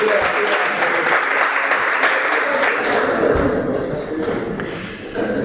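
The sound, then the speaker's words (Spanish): Applause from an audience at a lecture, a dense, loud patter of many hands clapping that holds steady, then thins and softens over the final second or so. “Mirad, aplaudo ahí, eso.”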